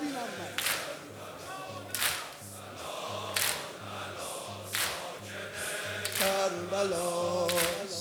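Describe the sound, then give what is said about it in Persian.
Mourners beat their chests in a mourning ritual for Imam Hussein: many rhythmic, sharp slaps land at a steady pace under a chanting voice and a low droning tone. “دو دست برای امام حسین، با همه جونت سینه بزن”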